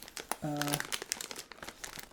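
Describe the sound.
Crinkling of a crisp packet holding corn-puff snacks, a short burst of sharp rustles and crackles, with a brief hummed voice sound partway through.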